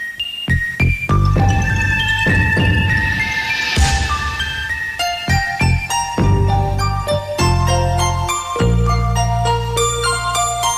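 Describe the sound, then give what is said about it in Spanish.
An electronic instrumental theme tune for a Televisión Española film programme plays loudly, with bright bell-like chimes, punchy chord stabs and a rising, swelling sweep near the middle. “como la del programa cinematográfico Cine Club. Vale, claro, cuando empezaba la peli sonaba esto.”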